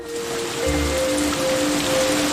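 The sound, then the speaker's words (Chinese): A sudden rain shower falls as a steady, even hiss of raindrops, moderately loud and unbroken from start to finish, with faint sustained tones running underneath. “哎，这怎么突然还下雨了呢？”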